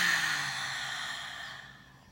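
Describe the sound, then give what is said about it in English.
A deep breath let out in a long, airy sigh, loud at first and slowly fading. “let's take a nice deep breath in and release.”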